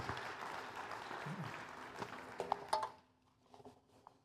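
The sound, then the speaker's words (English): Sunday-morning church audience applauding a welcome for a guest speaker, moderate clapping for about three seconds that thins out into a few faint sounds. “So please welcome Dr. Rodcup as he comes to speak for us today.”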